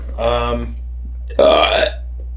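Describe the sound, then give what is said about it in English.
A loud, croaking burp follows a shorter voiced sound, both heard over a steady low hum. “You get one free burp per episode.”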